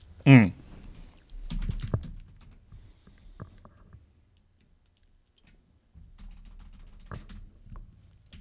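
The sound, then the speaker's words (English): Keys tapped on a computer keyboard while a web search is typed, heard as a few scattered, faint clicks separated by quiet gaps over a low background rumble. “So I should go look for the apology, yeah, I assume? Just type Jeremy Clarkson apology. I'd love to know what comes up.”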